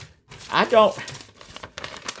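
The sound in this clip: Paper crinkles and rustles as an envelope is handled and searched, a few short crackling bursts mixed with people talking.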